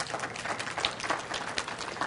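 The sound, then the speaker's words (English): Audience applause breaks out during a church teaching, a steady wash of clapping that is moderately quiet and lasts about two seconds with no voice over it. “Give her a big hand clap.”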